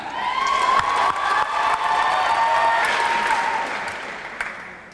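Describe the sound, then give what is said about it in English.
Applause and cheering from an audience at a live poetry show, a dense, loud, steady clatter of clapping with scattered whoops, easing off slightly near the end. “It was you. Applaud the poet. And please put your hands together and welcome to the stage the next poet, Lucinda.”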